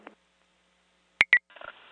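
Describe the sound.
Two short, sharp electronic beeps of a fire dispatch alert retone come in quick succession over a radio channel after near silence, followed by faint, wavering radio tones and noise.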